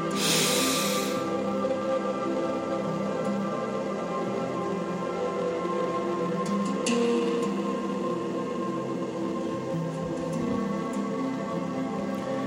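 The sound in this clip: A single deep breath drawn in at the very start, a brief airy rush, followed by a long, steady low hum with no talking.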